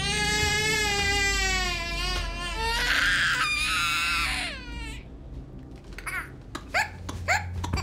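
A young child cries, with long, high, wavering wails that rise and fall for several seconds, then breaks into shorter sobbing gasps and whimpers that come in quick bursts.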